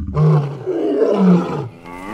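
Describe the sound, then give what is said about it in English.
A lion roaring, an escaped zoo lion on the loose: one long, deep, rough roar lasting well over a second, loud and alone, ending in a brief fading tail. “Watch your butts, everyone! There's a lion on the loose!”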